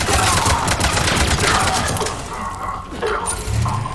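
Rapid video game gunfire, dense, loud overlapping shots and bursts that continue without pause, easing slightly midway before picking up again.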